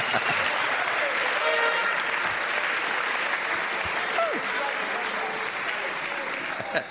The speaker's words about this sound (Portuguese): Come on, palmas, palmas. It's transformation. Palmas para ti mesmo.